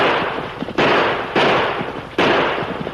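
Gunshots in a western shootout during a stagecoach hold-up: three sharp, loud shots, each followed by a long noisy tail, ring out at uneven intervals over a constant rough rumble.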